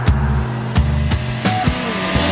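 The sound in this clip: A car drives fast along a toll road, a continuous low engine and road rumble punctuated by several sharp, brief thumps at irregular intervals.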